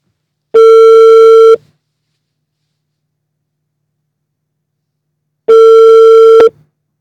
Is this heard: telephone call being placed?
yes